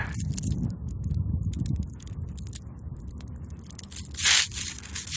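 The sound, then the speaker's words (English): Tearing a piece off by hand: a continuous, crinkly rasp of ripping that surges into a louder, sharper burst near the end, with no talking. “I'll just tear off that bit.”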